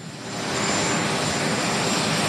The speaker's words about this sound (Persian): تصاویر زنده رو میبینید از مارین وان، هلیکوپتر رئیس جمهور، که او رو به پایگاه مشترک اندروز آورده